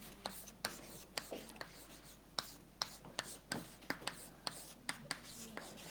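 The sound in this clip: Chalk sketching on a blackboard during a lecture, with many sharp, quick taps and short scratchy strokes in an irregular rhythm, faint overall.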